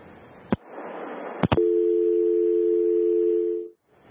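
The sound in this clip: A telephone line goes dead after a caller hangs up. A few sharp clicks come first, then a steady, even tone holds for about two seconds before cutting off abruptly.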